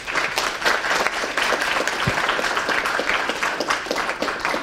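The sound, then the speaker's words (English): Audience applause at a stem cell research forum, a dense, steady patter of many hands clapping at an even level for the whole stretch, with no talk over it. “Please put your hands together and welcome Damien.”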